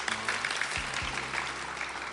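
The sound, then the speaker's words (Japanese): Audience applause welcomes guests at the start of a talk about an ultramarathon, a soft, steady wash of many hands clapping without a break. “素晴らしい拍手でお迎えいただきましたけれどもね”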